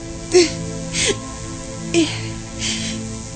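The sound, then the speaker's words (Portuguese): A woman crying: a few short sobbing, whimpering gasps spaced unevenly over a faint steady hum. “E agora pare de chorar, uma vez que esse choro... Pare de uma vez com esse choro.”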